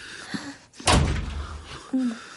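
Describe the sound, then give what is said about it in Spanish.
A door shutting in a drama film: one solid, heavy thud with a short rumbling tail, with brief soft vocal sounds just before and after it. “Cierro la puerta.”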